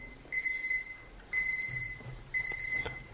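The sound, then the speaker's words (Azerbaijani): A mobile phone ringing during a sermon, three bursts of a high warbling electronic tone at regular intervals, faint and with no talk. “Telefonu söndürün.”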